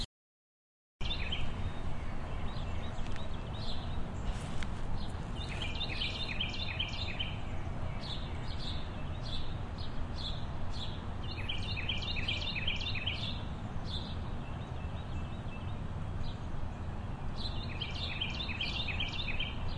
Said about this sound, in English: Let's center to that bird call.